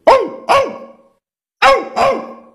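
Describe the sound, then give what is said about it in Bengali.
A human voice imitates a dog's bark by voicing an "ou" sound with the tongue raised toward the palate, giving four loud, sharp yelps in two quick pairs separated by a pause. “আপনার জিভটা মনে করুন ঊর্ধ্ব তালুর দিকে রেখে ঔ ঔ উচ্চারণ করলে কুকুরের ডাক আসবে।”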